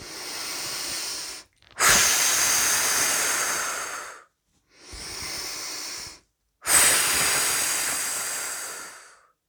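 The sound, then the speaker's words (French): Slow breathing during a guided relaxation exercise: four breathy, airy rushes of air in two pairs, each shorter breath followed by a longer exhale that gradually fades, separated by brief silences. “Et même exercice, à chaque expiration, nous évacuons ce qui nous tend en cet instant, en cet espace.”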